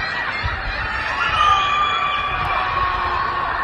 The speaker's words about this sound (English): That's the sound of anger. It's the sound of human beings. That's the sound of men and women in Shanghai, China, who are screaming out of the windows of their high-rises after a week of